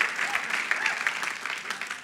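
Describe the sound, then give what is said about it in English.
Congregation applauding in a church service, a dense round of clapping from many hands, fairly loud and steady, with some voices mixed into the clapping. “Come on, give the Lord a huge round of applause.”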